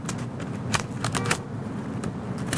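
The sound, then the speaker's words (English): Index cards in a card file being flicked through, a soft papery rustle with several sharper flips and clicks over a low steady background. “Crosby consults a card file.”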